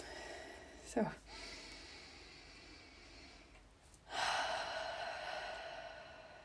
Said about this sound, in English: And let's take in a few deep breaths together.